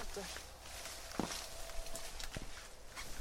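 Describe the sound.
Faint footsteps of people walking inside a building, the newest one at a site in Vestberg: a few soft, scattered steps over a low background murmur, with people talking.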